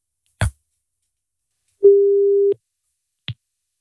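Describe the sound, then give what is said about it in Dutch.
A smartphone ringing tone heard while placing a call: one steady mid-pitched beep lasting under a second, with a sharp click before it and another after it, and silence in between. “Even testen of hij snel opneemt of überhaupt opneemt als ik nu bel.”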